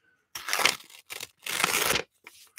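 Paper tearing: a printed paper copy of a papyrus facsimile is ripped in a few rough, crackling bursts of uneven length, loud and alone with no talk.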